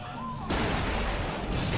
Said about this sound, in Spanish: Una bomba explota en el Consulado de México.